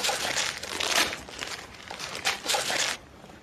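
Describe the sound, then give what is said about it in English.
Wrapping paper crinkling and tearing as a wrapped CD gift is ripped open, in several quick rustling bursts of even loudness that stop abruptly near the end. “I'm going to rip it. All right, I'll rip it.”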